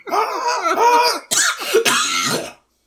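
A person hacks up an imagined werewolf hairball: a long, rasping, voiced cough-like hack followed by two harsh bursts, loud and alone.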